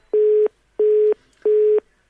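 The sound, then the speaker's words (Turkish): Telephone busy signal after a call dropped on a line with a recurring fault: three steady, low-pitched beeps of equal length with even gaps, and a fourth just beginning, heard alone. “gene kesildi telefon. Telefonda bir arıza yapıyor devamlı olarak.”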